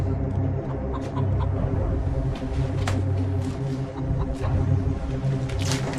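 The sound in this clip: A small brown hen clucks steadily for several seconds after being taken from a cardboard box, a continuous low, throaty murmur of overlapping clucks with no voices.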